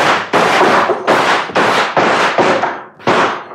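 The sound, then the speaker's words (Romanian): A volley of gunshots fired on command: a rapid run of several loud, sharp cracks, each with a short noisy tail. The bursts come close together with brief gaps between them. “La comanda mea, am descărcat o salvă. Atențiune! Foc!”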